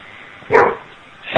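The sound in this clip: A dog gives one short, sharp bark, and a second bark begins just as the sound ends. Both stand out against a thin, muffled background.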